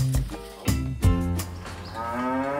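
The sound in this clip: Cattle in a stall moo in low, harmonic-rich calls. Noisy bursts break in early on, and a longer, drawn-out moo comes near the end.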